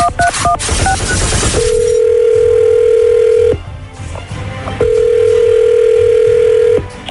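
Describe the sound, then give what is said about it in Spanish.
A telephone number is dialled with several quick keypad beeps, followed by two long, steady, loud tones separated by a short gap. “Permíteme. Vamos a marcarle.”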